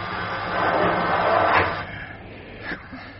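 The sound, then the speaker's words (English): An outer hatch on a spaceship opens with a low, breathy whoosh that swells and then fades away, ending in a faint knock. “Right, I'm opening the outer hatch. Don't move yet.”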